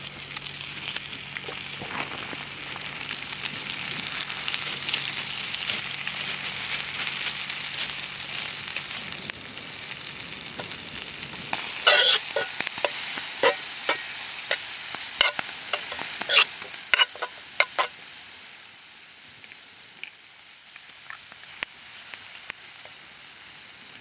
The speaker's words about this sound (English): just cut this up quite coarsely, chuck it into the butter.